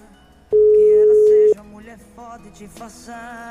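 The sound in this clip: A telephone call ringing out as a prize winner is called back: one loud, steady ringing tone lasting about a second, followed by quieter voices.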